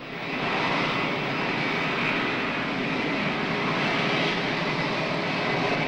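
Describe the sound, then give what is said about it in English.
A low, steady roar of a plane passing over an airfield near the runway lights, a continuous rumbling din that holds loud and even throughout, with no other sounds standing out. “Ross appears to be waiting for the din of the aircraft to completely cover the gunshot.”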